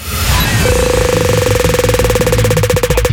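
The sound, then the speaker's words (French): A prize wheel spins during a summer gift giveaway, giving rapid, steady clicking over a sustained mid-pitched tone and a low hum. “Je vais lancer la roue et ensuite tu diras stop quand tu veux l'arrêter.”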